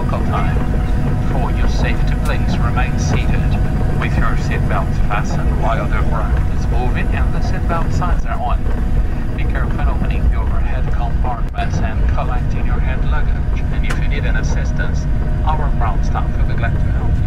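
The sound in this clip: Airliner cabin on a Go flight arriving in Montevideo: a steady, loud engine drone fills the whole stretch while a voice speaks continuously over it.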